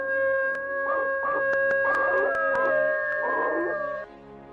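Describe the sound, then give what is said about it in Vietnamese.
Eerie, drawn-out howls from a dog-like zombie creature, a few wavering cries over sustained tones that hold steady until they cut off near the end. “trước mặt của Hằng, một thây ma người chó nhìn rất đáng sợ, với hai con mắt bị chọc mù. Nó đứng đó và rú lên từng tiếng ghê rợn.”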